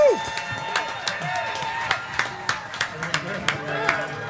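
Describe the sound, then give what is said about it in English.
Scattered hand claps from an audience welcoming a performer onto a stage: many sharp, uneven claps in a loose series, with voices underneath. “How about a big hand for the one, the only, Margot Price.”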